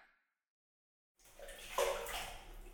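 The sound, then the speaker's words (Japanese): Hot water is poured over a person sitting in a bath. After a moment of silence, a loud rushing, splashing pour starts and keeps going. “そのまま、座っていてくださいね。今、お湯かけますから。”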